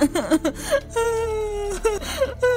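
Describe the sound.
A woman cries, her voice breaking into wavering, sobbing wails and whimpers that bend up and down in pitch, in several loud bursts separated by short catches of breath.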